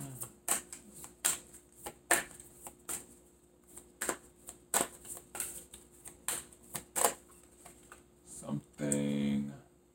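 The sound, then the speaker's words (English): Cards drawn and handled from a Super Attractor oracle deck during a tarot reading give many sharp taps and papery clicks in an uneven rhythm, ending in a louder, longer riffling shuffle. “Now, let me take a Super Attractor card right quick to wrap this up.”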